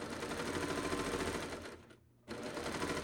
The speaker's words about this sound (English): Okay, three thread overlock narrow on a woven, or excuse me, on a knit.